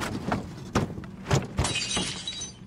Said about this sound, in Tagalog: Ano na naman yung binasag mo dyan?